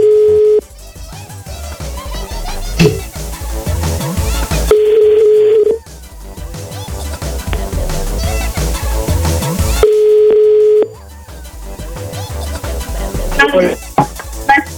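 Telephone ringback tone while a call is being placed: three steady, mid-pitched tones about a second each, spaced several seconds apart, heard over continuous background music.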